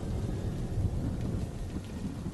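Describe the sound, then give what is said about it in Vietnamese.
Heavy rain pours in a dense, steady hiss, with a deep rumble of thunder beneath it and no voices. “Ngoài trời đang mưa lớn, cơn mưa như là suối xả vọng lại bên tai của ông.”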